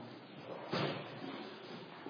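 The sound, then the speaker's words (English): A door swung shut with a single soft thud, a short burst of noise rising briefly out of a steady, faint background hiss before the quiet returns. “I don't know what's going on up here today, but let's just shut those doors.”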